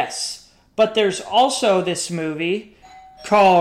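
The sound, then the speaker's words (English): A doorbell rings with a brief, steady electronic chime right after a stretch of talk, and a voice resumes speaking just after the tone. “Sorry, someone just rang my doorbell.”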